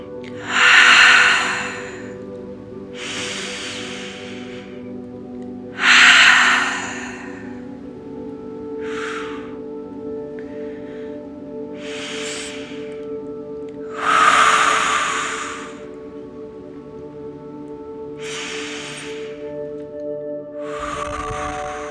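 Deep, activating breathwork breaths: many long, airy rushes of breath at a fairly even pace, some stronger than others, over a soft, sustained drone of steady tones.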